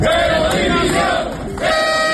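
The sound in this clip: A protesting crowd of firefighters boos and shouts at a political official in Zaragoza, a loud, sustained mass of yelling voices that dips briefly before surging again.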